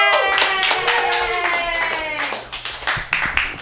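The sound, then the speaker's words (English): Audience clapping and cheering for a comedian at a comedy club show, with bursts of claps and some voices calling out over them, thinning toward the end. “So you better cheer wildly for your proxy.”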